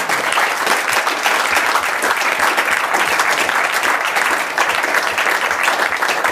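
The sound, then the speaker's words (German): Audience applause at a live event: a dense, steady wash of many hands clapping, loud and continuous for the whole stretch without a pause or any voices. “Danke für den Applaus, den kann ich nur an Sie weitergeben, liebes Publikum.”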